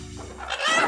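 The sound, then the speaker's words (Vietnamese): A chicken brought as a gift from the countryside clucks once in a brief, harsh, rough-textured call that grows louder toward the end. “Gà. Vâng, gà.”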